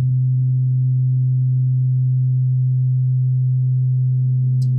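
Weighted tuning fork ringing a single low, pure tone, held steady and loud for nearly five seconds with no break, ending with a brief faint click.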